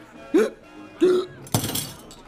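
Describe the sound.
Hiccups from a nervous man: a few short, sharp bursts separated by pauses, each jolting up abruptly and cutting off quickly, the last one noisier and more breathy.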